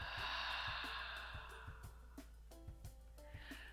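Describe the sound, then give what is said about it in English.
Gentle breathing in and out during a seated guided breathing exercise: a soft, airy breath sound that fades, then a second breath starts near the end, all faint and without talk. “taking a nice gentle breath in and out.”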